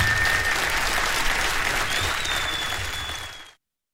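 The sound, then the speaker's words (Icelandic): Audience applause for a performer at a concert: dense, steady clapping from a crowd that holds for about three seconds before quickly fading out to silence. “klappið fyrir honum bara”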